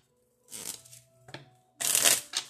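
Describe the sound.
Tarot cards being shuffled in two bursts: a softer papery rustle with a brief snap, then a louder, brighter flurry of riffling cards over near silence.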